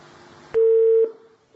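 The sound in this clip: Telephone line tone after a call is cut off: one loud, steady electronic tone of about half a second that stops sharply, followed by faint line noise. No voices.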